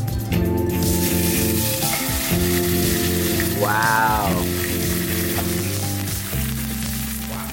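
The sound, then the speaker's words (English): Steak frying in Zero Acres cultured vegetable oil over high heat, a loud, dense crackling sizzle that continues steadily throughout without pause. “Uh, Zero Acres Cultured Vegetable Oil. Crisp opening. I'm just gonna blast this on high heat.”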